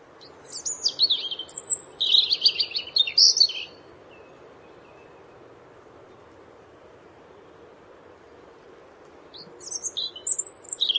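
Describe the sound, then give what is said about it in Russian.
European robin song in two bursts of high, thin, tumbling warbled phrases, one across the first few seconds and another near the end, separated by quiet with faint low background noise. “Зарянка.”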